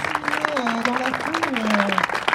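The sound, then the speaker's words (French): Applause from an audience at an evening gathering honouring a team after six months of building works, steady and fairly loud, with a voice sounding over the clapping. “Je vous propose de les applaudir quand même fort parce que ils sont tous”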